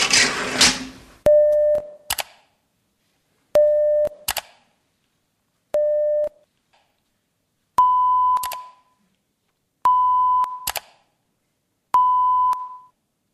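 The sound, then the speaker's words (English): Hearing-test tones play through headphones: six clear beeps at steady intervals of about two seconds, the first three lower in pitch and the last three higher, each followed by a soft click. “there'll be a series of sounds on the headphones, and every time you hear a sound, I want you to press this button”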